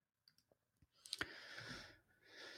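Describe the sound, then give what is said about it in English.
Faint clicking of a computer keyboard as a search is typed, a few isolated taps at first and then a quicker burst of keystrokes over soft hiss. “Let's go to their search and just type in conspiracy theories.”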